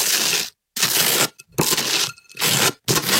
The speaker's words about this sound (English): Yeah, it's spreading butter on toast.